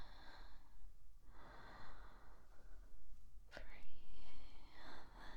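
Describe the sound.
A person takes slow, deep breaths during a guided relaxation session, producing soft airy hissing inhales and exhales that swell and fade, with a sharper, louder breath near the end.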